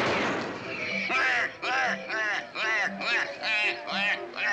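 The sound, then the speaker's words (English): A firing squad fires a volley of gunshots: one loud, broad burst that decays over about a second, followed by a voice in a series of short, rhythmic bursts. “Ready? Aim. Fire!”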